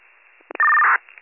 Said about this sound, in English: I'll give the caller a call.